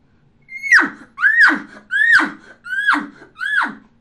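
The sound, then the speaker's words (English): A man voices an elk grunt call without a calling tube, giving five evenly spaced, raspy bursts. Each opens on a high squealing tone that slides down into a guttural grunt. “Now I'm going to grunt at the end of the tube. And that grunt sounds like this. Just elongate it. Without the tube, sounds like this.”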